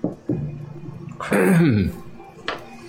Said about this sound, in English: You do that, you hear a sound of someone clearing their throat.